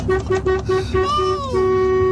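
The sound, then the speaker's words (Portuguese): A car horn honks repeatedly in traffic as another driver keeps sounding it: several short, evenly spaced blasts followed by a longer sustained tone, loud and clear, with faint voices underneath. “O outro continua buzinando ainda aqui.”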